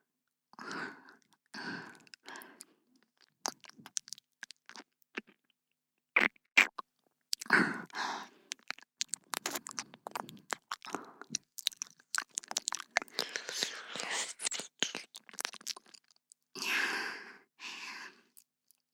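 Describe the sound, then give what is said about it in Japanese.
Wet ear-licking sounds in an ASMR session: many moist clicks, smacks and slurps come in uneven bursts, mixed with soft sighs and breaths, close and quiet against near silence. “全身で気持ちよくなっていただくコースなんです。この耳なめもそのうちの一つというわけです。”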